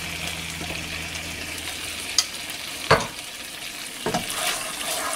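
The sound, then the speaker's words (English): Chicken curry with coconut cream is stirred in a pan, making a steady low sizzle broken by a few sharp clicks and scrapes of the utensil. “once it's all in, you're basically just going to mix this around. And if you need to add more coconut cream, like let's say I do need to add a little more here, you can just do that.”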